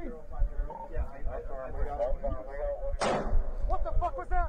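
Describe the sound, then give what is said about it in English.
A single loud gunshot from a police officer's own gun cracks sharply once, partway through continuous talk from several voices. “Yeah, that was a cop getting shot with his own gun to the leg.”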